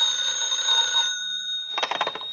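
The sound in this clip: A telephone rings in a house late at night, giving a sustained high ringing tone followed by a rapid, rattling metallic burst. No voices are heard.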